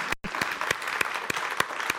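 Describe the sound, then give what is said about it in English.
Audience applause, a steady wash of clapping after a brief drop to silence near the start, with sharper claps landing at a regular beat about three times a second. “yes, you can applaud”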